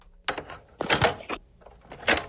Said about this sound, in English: Okay, here it is. Cassette tape.